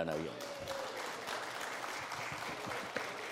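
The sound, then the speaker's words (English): Audience applause, a continuous, even wash of many hands clapping throughout, with a short voice heard at the very start. “That was not intended to happen for you to applaud.”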